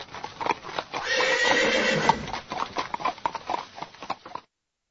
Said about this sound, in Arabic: واستأجرت عربة تجرها الخيول